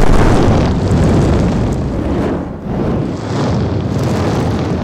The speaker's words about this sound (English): Feel the heat with scorching fireballs.